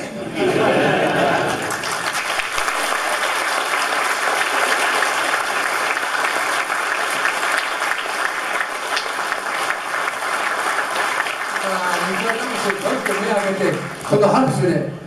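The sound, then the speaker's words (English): Sustained audience clapping at G-Fest, a fan convention, thanking a returning guest: a dense, steady wash of applause for about twelve seconds, then voices over its fading end. “I'm sure Nick Adams is tearing up right now hearing you guys all clapping.”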